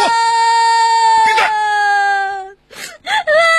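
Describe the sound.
A young child cries in a long, high, sustained wail, then breaks into shorter sobbing bursts after a brief catch of breath.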